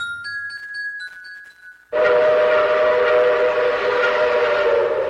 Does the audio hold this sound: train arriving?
yes